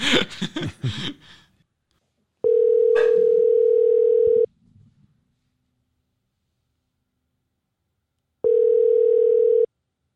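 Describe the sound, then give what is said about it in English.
A telephone line tone sounds while a call is being placed: two long, steady buzzing tones separated by a stretch of silence, with brief talk at the very start. “Let me call Matthew.”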